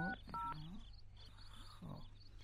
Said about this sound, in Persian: خب باش که نمبرش بگیرم